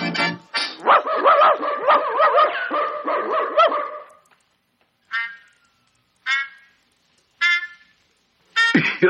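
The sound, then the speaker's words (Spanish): Dogs barking on a 1966 children's Disney story record: a dense run of overlapping barks for about four seconds, then a few loud single barks spaced apart by short silences. “Mira, ahí vienen unos perros a espantar a los gatos”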